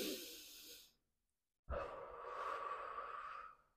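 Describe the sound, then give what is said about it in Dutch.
A deep breath in and out: two long, airy breaths of about one and two seconds, separated by a short silent pause, fairly quiet and with no talk. “Maar we beginnen even met adem diep in en uit.”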